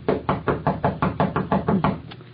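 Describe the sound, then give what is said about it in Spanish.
Knocking on a door: a rapid, evenly spaced run of many sharp knocks at a steady rhythm. The knocks are fairly loud and heard alone, with the last few slightly softer. “Parece que llamaron a la puerta.”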